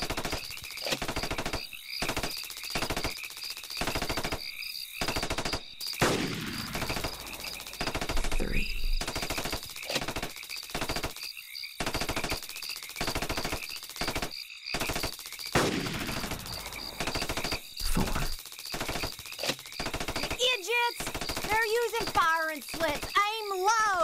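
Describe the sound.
A machine gun fires many rounds in rapid, loud, repeated bursts throughout, with short gaps between volleys and a voice heard briefly near the end.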